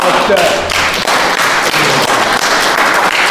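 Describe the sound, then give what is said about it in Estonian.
People at a community ceremony applaud loudly. Many sharp, crisp claps merge into a dense, crackling burst that continues at full strength throughout. “Aga olge tublid ja teeme aplausi,”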